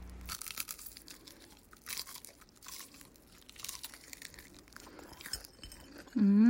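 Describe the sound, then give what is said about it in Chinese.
Someone eats crispy fried chicken from A-Hong in Taitung, with faint, irregular crunching bites and chewing. A short voiced hum comes at the very end. “嗯，阿红炸鸡好好吃哦。”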